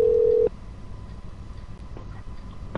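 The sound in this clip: A telephone ring tone sounds down the line during a call: one steady, even tone lasting about half a second, then it cuts off to a quiet, hissy line.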